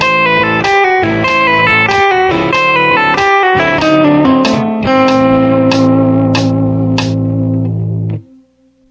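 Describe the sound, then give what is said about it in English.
A triplet blues-rock lick played at a slow tempo: a steady run of many bright, loud, evenly spaced notes that settles onto a long held ringing note before cutting off abruptly. “Example 12A is a triplet lick that can be used in blues and rock songs. At a slow tempo, it sounds like this.”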